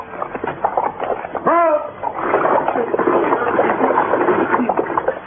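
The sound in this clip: Horses of a cavalry column being mounted: a dense, continuous commotion of movement that runs through the whole stretch, with a brief tonal call rising out of it early on.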